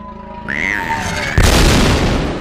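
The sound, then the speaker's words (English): A fiery film explosion in a cave bursts in suddenly as a deep, loud, sustained roar, following a high tonal whine that runs beforehand. “The fiery blast billows toward Anakin.”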